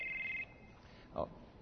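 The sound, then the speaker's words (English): A mobile phone ringtone goes off during a sermon: a steady, high electronic tone lasting under half a second, then a short, louder blip over a low background. “I meant to leave this back in the office, and I got a phone call here.”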